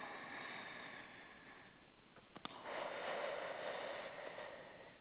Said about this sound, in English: We want to start by just taking some deep breaths. And we're going to take another one.